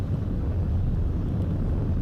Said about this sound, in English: We've exceeded Mach 1 on the Falcon 9.